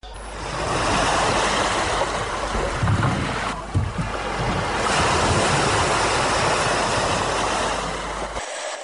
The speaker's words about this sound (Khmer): បណ្ដាទូកនេសាទបានវិលត្រឡប់មកដល់ភូមិ Idanao វិញដែលស្ថិតនៅមាត់សមុទ្រជិតព្រំប្រទល់ខាងលិចរវាងប្រទេសកាមេរូននិងប្រទេសនីជេរីយ៉ា